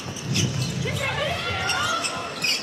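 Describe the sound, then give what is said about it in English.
A basketball bounces as it is dribbled on the court during a women's game, the steady thumps blending into continuous crowd hubbub and chatter. “Payne tries to dribble it in.”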